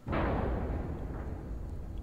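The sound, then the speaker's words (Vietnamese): A car crash as a driver, failing to brake in time, hits something: one sudden heavy boom followed by a loud, sustained rumbling roar that barely fades over the next two seconds, with no voices. “Ầm một tiếng, Trung dường như không kịp phanh xe lại. Vụ va chạm làm cho đầu gã đập vào vô lăng đau đớn.”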